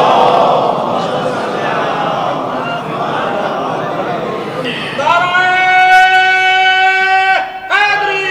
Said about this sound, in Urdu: یہ جو آپ نے لگایا نعرہ یہ بھی صدقہ ہے